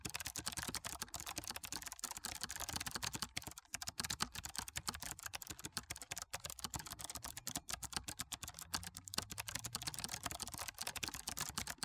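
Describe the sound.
Typing on a computer keyboard into a notepad: a dense, continuous stream of many sharp key clicks lasting the whole time, with no voices.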